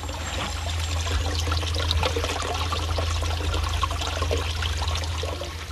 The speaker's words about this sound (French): s'agit d'un déversoir avec un couloir en zinc. Et là, cette eau arrive dans ce bassin